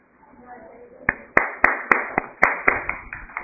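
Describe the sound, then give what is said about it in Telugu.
Audience clapping during a class session: a run of about nine sharp, evenly spaced hand claps begins a third of the way in, with faint murmured voices underneath. “చేసిన వాళ్ళకేమో చేసినందుకు చప్పట్లు, చేయని వాళ్ళకి చెయ్యబోతోనందుకు చప్పట్లు.”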